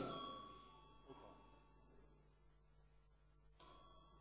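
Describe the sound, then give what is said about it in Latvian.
A bell or chime sounds during a Latvian parliamentary session to call members to a vote on a draft decision. It comes as a steady ringing tone that holds and slowly fades over about four seconds. “Lūdzu zvanu.”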